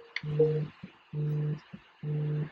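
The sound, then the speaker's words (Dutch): Phone ringing with an incoming call: three evenly spaced electronic tone bursts with a buzzing, harmonic ring, separated by short gaps with faint blips, alone without talk. “Oh, ik word nu al gebeld, terwijl het pas over acht minuten zou zijn.”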